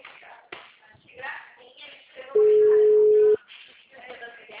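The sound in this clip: Telephone tone after a dropped call: one steady, mid-pitched beep lasting about a second, with people talking before and after it.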